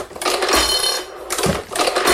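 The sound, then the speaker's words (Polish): Rhythmic mechanical clatter of a historic Boston platen press used as a numbering machine at a security-printing works, running in three loud bursts separated by brief lulls. “Jest to egzemplarz muzealny, to maszyna historyczna, którą nazywamy potocznie Bostonką.”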